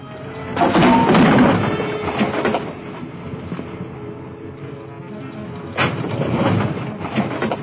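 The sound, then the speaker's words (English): Jeep driving down a steep slope, a loud rattling rumble that surges early, eases to a softer, steady drone, then swells again near the end. “It's too steep. Come on, I drive my Jeep down here every day. Let's go.”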